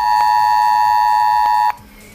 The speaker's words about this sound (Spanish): Volverá a sonar esto en sus teléfonos móviles, será parte de un simulacro de incendio